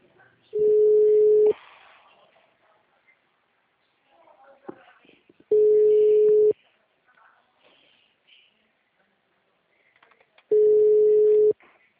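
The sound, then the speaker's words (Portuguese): A telephone busy signal after a dropped call: three steady low beeps, each about a second long and spaced roughly five seconds apart, with faint murmuring in the gaps. “Eu não sei se ela desligou, se caiu a ligação,”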